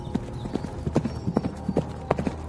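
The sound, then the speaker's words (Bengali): Hooves clip-clop as a lone rider travels on horseback toward a sal forest: a steady run of many sharp, fairly quick hoofbeats over a faint background hum. “আদেশ দিয়ে জগৎ সিংহ একা ঘোড়ায় চড়ে শালবনের দিকে যাত্রা করলেন।”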